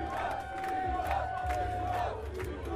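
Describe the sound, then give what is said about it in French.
A concert audience at the Festival Chorus calls for an encore, a dense, sustained roar of shouting and cheering with one long held note running through it. “Et puis l'ambiance du public aussi. Oui aussi, ça va avec. Il participe. On entend le rappel là d'ailleurs.”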